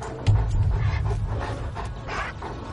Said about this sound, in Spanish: y cuando necesitan refrescarse como todos los perros, jadean.